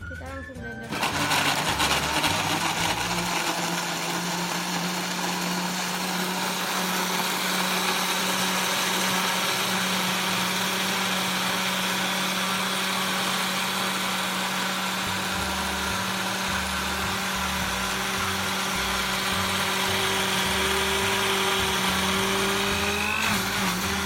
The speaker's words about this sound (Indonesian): Jadi langkah pertama adalah blender pepaya, baru kita ke bahan yang lain.